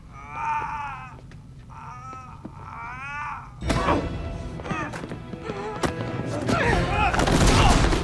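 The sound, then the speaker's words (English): A heavy thud as a security guard is hurled across a room in a sci-fi scene: wailing, creature-like cries first, then a sudden loud impact followed by a chaotic run of sharp bangs and clatter. “Yeah, the one security guy just got tossed across the room.”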